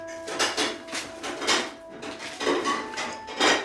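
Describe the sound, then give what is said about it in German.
A plate is fetched and set down during a tasting of Japanese sweets, with several light clinks and clattering knocks spread unevenly. The last contacts are among the loudest, and no voices are heard. “es wird noch ein neuer Teller geholt”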